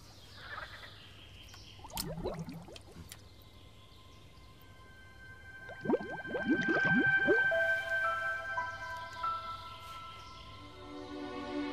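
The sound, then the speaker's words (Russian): Water bubbling and gurgling close to where a water sample is being taken: two separate bursts of wet, squishy bubbling, the second longer and louder, with quiet stretches around them. “Чуть дальше что-то бурлит.”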